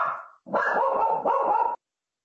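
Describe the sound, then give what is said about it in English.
A dog barks during a legislative meeting in a few harsh, drawn-out bursts. The last two run almost together, loud and alone with no talk over them. “I apologize for my dog.”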